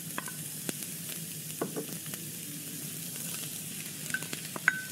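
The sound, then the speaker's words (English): Onion and celery sautéing in a pan, a steady, moderate sizzle with a few light clicks and scrapes of stirring through it. “So then we're just going to saute onion and celery together.”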